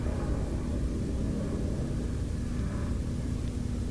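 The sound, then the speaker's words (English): A steady, even low rumble of a helicopter or plane flying overhead near an airport, continuous and unbroken, with no voices. “That's a helicopter there, or a plane of some kind.”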